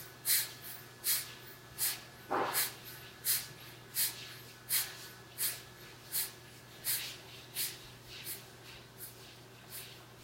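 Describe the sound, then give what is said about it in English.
Rapid, forceful nasal breaths of a bhastrika breathing exercise, many sharp snort-like puffs in a steady quick rhythm, alone over a faint low hum. “So go ahead now, lock your ears and up to 27 little Bastrika breaths.”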